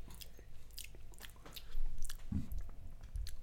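People bite and chew garlic-heavy food, with a series of moist, crunchy bites and mouth sounds at varying loudness, plus a few heavier thumps near the end.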